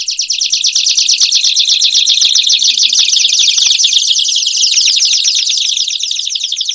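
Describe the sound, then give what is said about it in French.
Two canaries sing together in a dense, loud stream of high, rapid trilling notes that overlap and continue without a break. “En ce moment, vous entendez deux canaris.”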